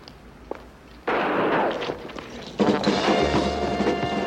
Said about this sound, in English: Sir, I think somebody's shooting at you.